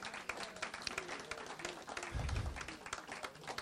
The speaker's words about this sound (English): Give the Lord a hand.